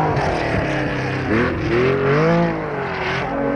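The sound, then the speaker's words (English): Lancia Fulvia rally car engine roaring as it slides through the Alpine stages of the Monte Carlo Rally, a loud, continuous drone whose pitch wavers and sweeps up and down as the revs change. “Munari and Manucci slide through the Alpine stages.”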